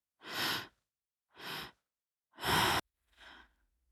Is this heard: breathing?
yes